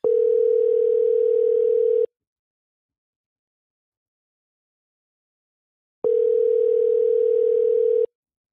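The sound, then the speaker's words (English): Telephone ringback tone on an outgoing call: two long, steady rings of about two seconds each, separated by a silent pause, with no other sound. “Ring all the way to voicemail.”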